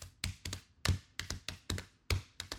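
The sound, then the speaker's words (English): Dry, sharp hand taps beat out a 4-against-3 polyrhythm: many quick knocks in an interlocking, uneven pattern, some hitting harder than others. The taps are fairly quiet and heard alone, with no talk. “there's this thing where playing the rhythm of 4 against 3, of playing a beat of 4 against a beat of 3, which sounds like this.”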